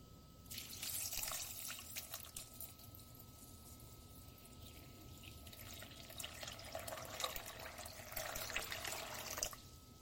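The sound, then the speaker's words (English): Water is poured over dried beans in a bowl to soak them, a little over a quart in all: a faint, continuous splashing trickle with two slightly louder stretches. “Now I'm going to add maybe somewhere between 3 to 5 cups of water. I want to make sure they're submerged.”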